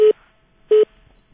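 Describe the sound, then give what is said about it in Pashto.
Busy tone on a telephone line after a call disconnects: two short, steady mid-pitched beeps separated by a pause, clear and alone. “متاسفانه چې ټلیفون مقطع شو”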